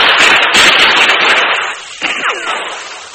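Gunfire is exchanged in an ambush among boulders: several sharp, cracking shots in quick succession over a dense, rushing roar, which thins out toward the end.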